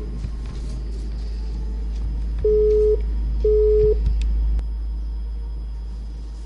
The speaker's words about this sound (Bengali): দুঃখিত, সংযোগটি বিচ্ছিন্ন হয়ে গেল, আপনি আবারও চেষ্টা করুন।